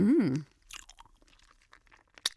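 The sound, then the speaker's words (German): A plastic bag of gummy bears being handled: faint, scattered crinkles and crackles of thin packaging, sparse and uneven, with one sharper crackle near the end. “Und dieses Geräusch von der Gummibärchentüte? Das ist so 50, 60 Dezibel laut.”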